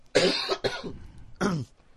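Coughing from a person during an interview: a few harsh, breathy coughs in separate bursts with short pauses between them, fairly loud and with no talk over them.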